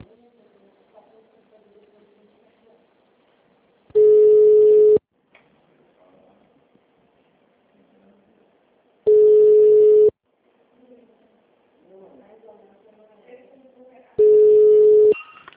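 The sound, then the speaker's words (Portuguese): Telephone tone after a dropped call: three long, steady, mid-pitched beeps spaced about five seconds apart, with faint talk and background murmur in the gaps between them. “Alô? Alô? Oi, a ligação caiu.”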